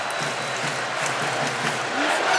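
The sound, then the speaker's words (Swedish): Stadium crowd noise from fans in Boston at a World Cup football match between England and Ghana, a steady, broad roar that swells slightly near the end. “publiken i Boston försöker, de gör allt vad de kan.”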